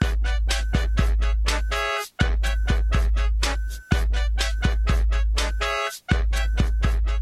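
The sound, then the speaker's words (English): Late-night 2 a.m. music from the original Animal Crossing video game, loud, fast and flamboyant, with brass over a pounding drum-machine beat and a few brief drop-outs in the bass. “Like 2 a.m. in the original Animal Crossing sounds like this raving party with brass and a drum machine, and the tempo suddenly spikes up and it's really like loud and flamboyant.”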